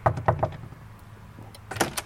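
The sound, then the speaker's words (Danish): Knocking on the door of a church's confirmation room: three quick, sharp raps, a quiet pause, then a cluster of louder knocks and door sounds near the end. “Jeg banker lige på en gang.”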